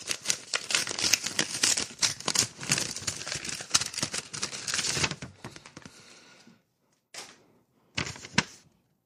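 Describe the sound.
Paper crackles and tears as an envelope holding a check is opened, a dense run of crisp rustling that goes on for several seconds. A few brief, isolated rustles follow after short silences.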